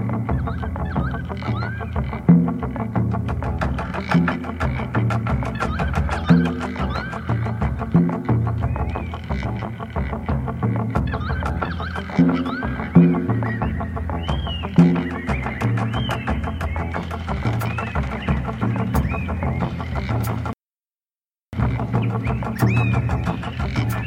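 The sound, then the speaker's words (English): Currawongs, large assertive relatives of the magpies, calling in a continuous recital of loud, ringing, repeated calls, broken by one brief silence near the end. “Recital from relatives of the magpies, the large and assertive birds known as currawongs or”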